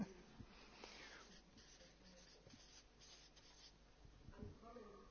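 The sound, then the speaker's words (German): A pen scratching on paper as someone writes words by hand, producing soft, uneven scratchy strokes with short pauses, and a faint voice near the end. “Beziehungen, ja, das schreibe ich mal hier mit, zu der Familie.”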